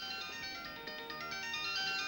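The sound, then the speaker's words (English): A pink rhinestone-studded mobile phone ringing with a bright tonal ringtone that holds a steady, continuous melody, fairly quiet and alone. “Wait, hold on, my cell phone's ringing.”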